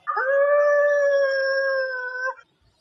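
Wolves howling: a long, sustained howl with steady pitch and layered tones, held loud for about two seconds before cutting off, with no other sounds.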